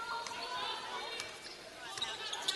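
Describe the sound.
A basketball is dribbled during a game on court, a few faint, sharp bounces spaced irregularly beneath a steady hum of crowd voices.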